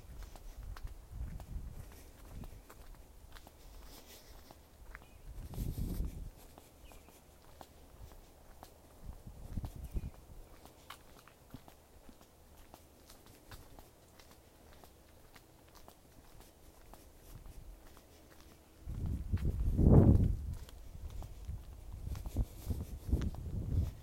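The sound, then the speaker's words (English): Someone walks quietly, producing soft, intermittent footsteps over a low background. A few louder bursts of scuffing steps stand out, the strongest near the end, and no one speaks. “I'm just going to walk quietly for a while and repeat in my head, feel better, do better. But I'm not going to talk to you. I'm just going to walk with you.”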